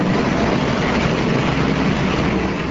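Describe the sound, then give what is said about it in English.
Two snow blowers clearing hotel sidewalks in downtown Milwaukee during a snowstorm give a loud, steady engine drone with a dense, rough texture and no pauses. “Outside a hotel in downtown Milwaukee, two workers used snow blowers to try to keep the sidewalks clean.”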